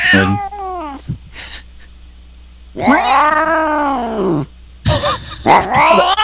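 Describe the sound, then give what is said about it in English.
Loud, close-up cat meowing: a few long, drawn-out, wavering meows with yowling tones, separated by short pauses. “That cat just sounds like he's right in my face.”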